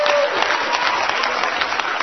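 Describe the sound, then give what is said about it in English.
A church audience claps in praise during a worship service. The applause is a steady, even patter of many hands and keeps the same loudness from start to finish. “Give the Lord a hand clap of praise, somebody.”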